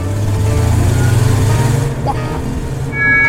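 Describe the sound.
A car engine rumbles in a steady, low drone that holds for the whole stretch, with voices speaking over it.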